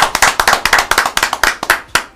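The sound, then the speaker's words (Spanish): Applause for a commentator: a quick run of sharp, uneven handclaps from a small group, loud and crisp with short gaps between bursts, no voices over it. “Un aplauso para el relator.”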